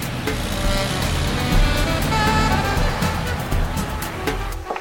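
A truck's engine rumbles steadily as the vehicle turns around and drives off, a continuous broad mechanical drone with a few faint clicks and rattles over it and no clear break in loudness.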